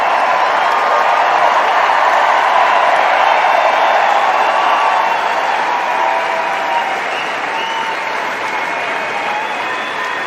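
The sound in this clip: Crowd applause fills Wimbledon's No. 1 Court after a tennis match, a dense, steady wash of clapping that holds loud and unbroken for the whole stretch.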